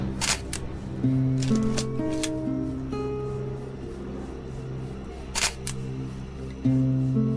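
Camera shutter clicks as photos are taken: a few sharp, brief clicks scattered over steady, sustained droning tones.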